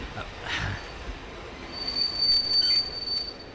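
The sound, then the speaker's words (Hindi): Train approaching a station: a loud, steady rumble of rolling rail cars, joined in the second half by a sustained high-pitched squeal of the wheels. “वो देखो, तीसरा station आ रहा है, वहां उतर कर डिब्बा बदल लेंगे।”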